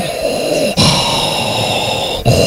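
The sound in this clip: A voice imitates Darth Vader's mechanical breathing with loud, hissing, raspy breaths drawn in long stretches, broken by brief pauses.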